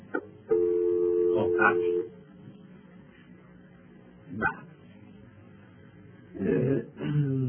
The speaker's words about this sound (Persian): من یک تماس دیگه میگیرم